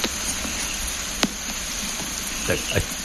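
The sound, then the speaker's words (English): Steady rain falling around a house in Australia after a long dry spell, a constant dense hiss with a few sharper tick-like drops standing out from the wash. “I talked all over it, but you heard the rain. That is such a healing sound, isn't it?”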